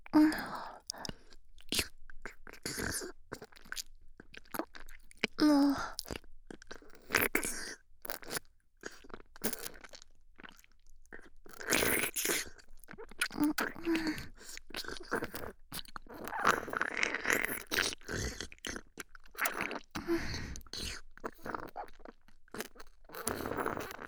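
Crunchy chewing of food fills the whole stretch, with many quick, crisp bites and chews in an uneven rhythm and no pauses of any length.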